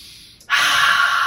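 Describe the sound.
A person demonstrates slow, calming breathing to soothe a crying baby. A loud, airy exhale starts abruptly and holds evenly for about a second, with no talk.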